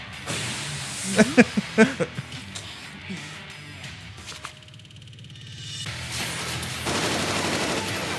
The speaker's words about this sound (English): These things do have, like, dang machine guns all over them.